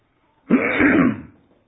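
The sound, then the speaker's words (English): A man clears his throat once: a loud, rough, gravelly rasp lasting about a second before fading out, with no speech around it. “Excuse me. I can't keep my throat clear”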